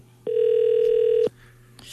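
A telephone ringback tone plays while a listener is being called: one steady, mid-pitched tone lasting about a second over a faint low hum, followed by quiet.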